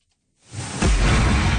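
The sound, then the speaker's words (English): An anti-hail cannon at an apple orchard in Quebec's Eastern Townships fires a shockwave skyward. After silence, a rushing whoosh swells, then becomes a loud, deep, sustained roar that fills the rest of the moment. “That's the sound of an anti-hail cannon. It shoots shockwaves into the sky and stops hailstones from reaching the ground in solid form.”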